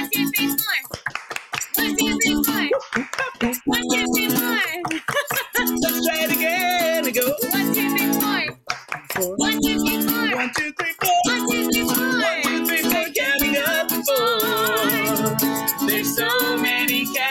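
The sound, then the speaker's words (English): Children keep a steady rhythm by clapping their hands and stomping their feet on the floor, with sharp repeated beats under loud singing voices. “We can make a little rhythm by clapping our hands and stomping on the floor. So make some noise.”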